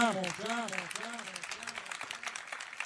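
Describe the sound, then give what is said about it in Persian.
A group claps hands in a firm, steady rhythm while a voice speaks over the clapping at the start; the sharp, even claps continue to the end. “8 ثانیه به عدد 8 کف مرتب بزن، محکم محکم محکم”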